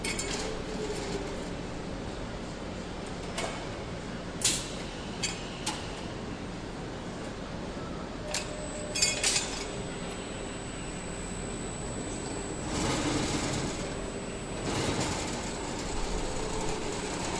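A shock absorber test machine runs at the Eibach facility in Corona, California, rougher than usual: a steady mechanical rumble and hiss with scattered clicks and clatters and a louder stretch late on, with no talk.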